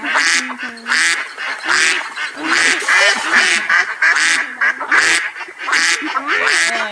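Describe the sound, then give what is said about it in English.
Ducks in a video game quack in a busy stream of nasal, honking calls, many in quick succession, loud and repetitive throughout. “That was the duckies. Ducks are the best animals.”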